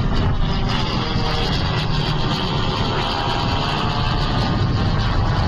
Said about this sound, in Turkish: Akıncı Tekirdağ Çorlu'daki pistten bu kez Roketsan'la STM yapımı Alpagut mühimmatıyla havalandı.